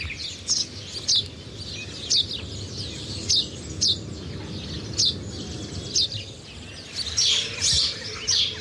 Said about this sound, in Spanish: Es un gorrión común.